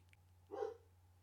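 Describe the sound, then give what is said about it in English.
A dog barking gives a single short, faint bark in the middle of an otherwise quiet stretch. “And that's the dog barking.”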